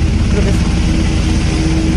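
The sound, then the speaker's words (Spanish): Chilean Air Force helicopter in flight, a steady, loud engine and rotor drone with low throbbing tones that holds unchanged across the whole clip. “El helicóptero de la FACH. Mira. Es como un Ferrari, weón, de los helicópteros, mira.”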